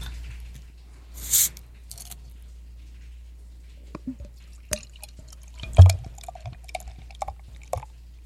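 Beer poured into a glass and foaming: liquid splashes and scattered drips, with a brief louder gush early on and a few sharp pops later, fairly faint overall.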